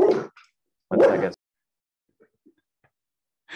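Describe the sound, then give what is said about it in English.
A dog barks at the mail carrier in a few loud, separate bursts with quiet gaps between them. “That's a happy dog.”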